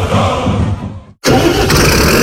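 A Fendt Vario tractor engine starting, loud mechanical rumble that cuts out briefly to near silence, then bursts back into a steady, loud running roar.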